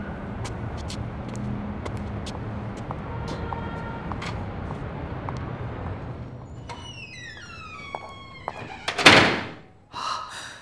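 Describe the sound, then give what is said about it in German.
A door is opened: after a quiet stretch of faint ticks, creaky squealing tones sound for a couple of seconds, then a heavy thunk lands and a second softer knock follows shortly after. “Ich mache Ihnen noch kurz die Tür auf.”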